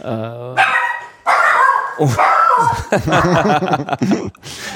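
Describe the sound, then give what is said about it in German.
A dog barks to greet people arriving in an apartment, several sharp barks mixed in among voices and light laughter. “So, der Hund hat die neu Ankommenden in der Wohnung begrüßt.”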